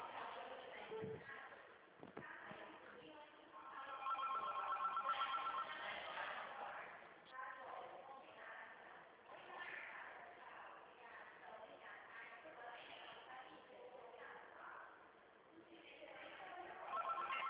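Ringback tone of an outgoing telephone call, heard through a narrow phone line: a couple of steady mid-pitched tone bursts separated by long gaps over a faint hiss.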